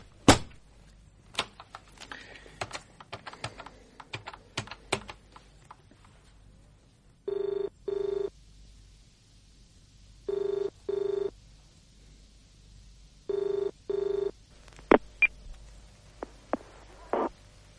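An outgoing telephone call rings through on the line, three double-burst ringback tones at an even rhythm, preceded by a series of sharp handset clicks and followed by a few more clicks.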